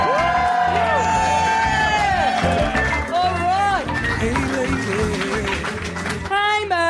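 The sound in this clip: A live comedy show audience cheers loudly, with rising and falling whoops, shouts and clapping that keep up throughout.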